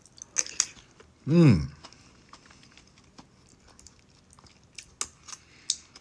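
Someone chews fukujinzuke pickles, making a few crisp, crunchy bites and scattered soft clicks, with a short voiced exclamation near the start.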